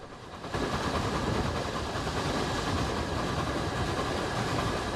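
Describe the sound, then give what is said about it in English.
A train thunders past on a track cutting through dense woodland, seen from a small platform crowded with spectators. A heavy rushing roar starts abruptly after half a second and stays loud and steady, with a faint rhythmic clatter. “But they're rewarded with little more than a fleeting glimpse of the train as it thunders past. The track cuts through dense woodland.”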